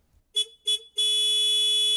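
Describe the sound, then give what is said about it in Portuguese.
Electronic horn-like signal resembling a motorcycle horn: two short, bright beeps followed by one long sustained tone at the same steady pitch, loud and alone. “Ué, mas desculpe, mas eu tô reconhecendo esse sinal aí. Isso aí é buzina de moto, né?”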